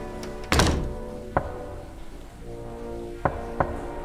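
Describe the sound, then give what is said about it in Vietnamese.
A few hollow thunks of knocking on a door, irregularly spaced: one heavy knock followed by lighter ones, over a faint steady low hum. “bỗng nhiên chị nghe có tiếng gõ cửa. Tiếng gõ cửa cứ vang lên như vậy. Cộc, cộc, cộc.”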